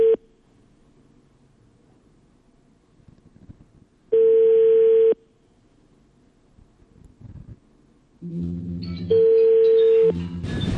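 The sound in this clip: Telephone line tone after a call is cut off: steady single-pitch beeps about a second long repeat every few seconds over faint hiss, and a denser buzzing multi-tone sound overlaps the final beep.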